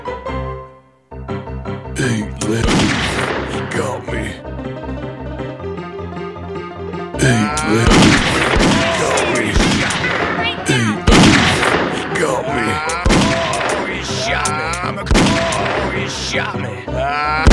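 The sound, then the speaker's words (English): Gunshots ring out during an ambush in a video game, a run of loud, sharp bursts over a sustained tonal backdrop that carries on throughout. “It's an ambush. He shot me. Had me. Shot me.”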